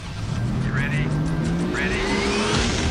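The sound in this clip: Race car engine roaring in an auto racing sound effect: a loud, continuous droning howl whose pitch climbs slowly, with a gritty, buzzing edge throughout.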